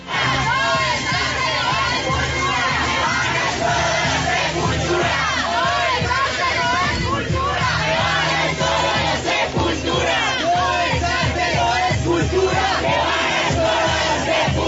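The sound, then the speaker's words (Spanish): A loud, dense crowd of animal-rights activists and bullfighting fans shouts and calls out as the gates open at the Santa María bullring in Bogotá. The roar is continuous and stays at a steady, high level throughout. “Escuchamos lo que se vivió ayer alrededor de la 1:00 p.m. cuando se abrieron las puertas para ingresar a la Plaza de Toros La Santa María de Bogotá y animalistas y taurinos se encontraron en el acto que estuvo suspendido durante 4 años.”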